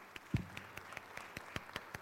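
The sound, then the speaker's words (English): Faint, scattered clapping from a small church gathering. Irregular individual claps patter sparsely rather than building into a full ovation. “Can we clap it up for Miss Eve today?”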